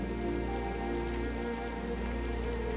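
Rain falls steadily on a garden with a small house, a constant, even hiss of drops pattering on surfaces with no breaks.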